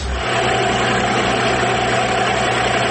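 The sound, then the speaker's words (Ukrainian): Engine drone of an American Sea Ark 34-foot (about 11-metre) military motor boat. It is a loud, even rumble with a constant low hum and no voices. “Цей катер набирає майже 60 км за годину швидкість.”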